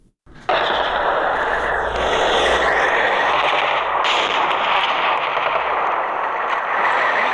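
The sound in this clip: Heavy, sustained gunfire from clashes between Afghan and Pakistani forces in Barikot and Dokalam, Nari district, Kunar province, bursts in abruptly and continues as a loud, dense, unbroken rattle to the end.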